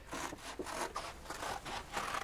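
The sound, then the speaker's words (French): Scissors cut through paper to trim out a footprint shape, making many crisp, evenly spaced snips in a steady rhythm. “Découpez cette empreinte de pas que vous voyez fort distinctement. Voilà, les ciseaux et le papier.”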